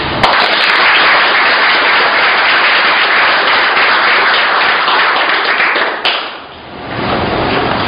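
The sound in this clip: A crowd claps for a newly sworn police officer at an agency swearing-in ceremony; loud, sustained applause from many hands runs for about six seconds, briefly thins to a lull, then swells again.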